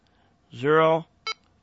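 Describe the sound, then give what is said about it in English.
Radio keypad beeps while a memory channel number is entered: a longer electronic tone, then a brief, sharp beep, both clear against a quiet background. “And you notice it'll give you a slightly longer beep at the last digit.”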